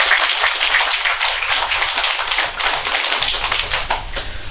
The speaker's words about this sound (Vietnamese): cho ông Phạm Hoài Nam một bài tràng pháo tay